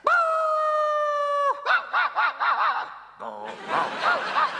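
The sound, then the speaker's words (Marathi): A dog lets out a long, steady howl, then breaks into a rapid series of short, rhythmic barking bursts that continue to the end. “मला माझ्या हापचटीला बघून भुंकतोस का हे कुत्र्या?”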